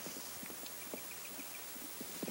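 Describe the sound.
Hoofbeats of a horse racing off a ranch with a rider, a faint, quick, irregular clatter of many hoof strikes throughout.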